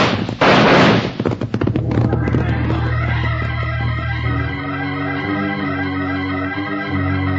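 A signal gunshot rings out as one loud, sharp burst with a brief ringing decay near the start, then music takes over and carries on steadily.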